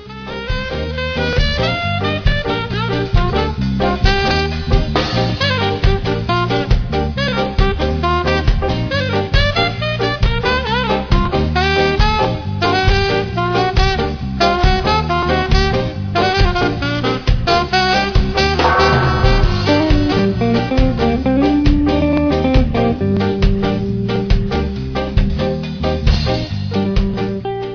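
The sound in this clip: A tribute band plays ska in honour of a Jamaican ska group, a loud, dense ensemble with a steady, bouncing beat that continues without a break and with no talking.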